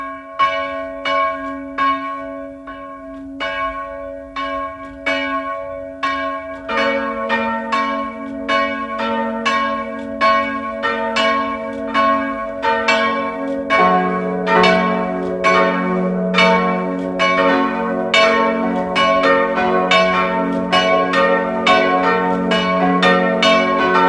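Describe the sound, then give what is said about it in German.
Bells of a Protestant parish church ringing at noon, a steady stream of overlapping resonant strikes with a layered, shifting pitch pattern, loud and sustained with no talking. “Es ist 12 Uhr. Sie hören die Glocken der evangelischen Pfarrkirche von Lutzmannsburg im Burgenland.”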